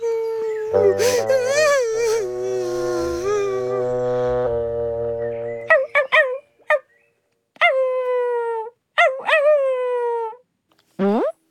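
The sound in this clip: A puppy cries and wails. A long, drawn-out howling wail over a low droning tone gives way to several short, high, whining yelps separated by brief silences.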